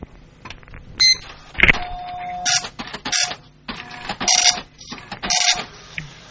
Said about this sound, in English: trying to get a Matrix printer to work.